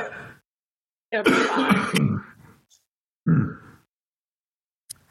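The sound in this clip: Throat clearing: a few rough, throaty bursts separated by silence, with one long rasping effort in the middle and a shorter gruff one after it.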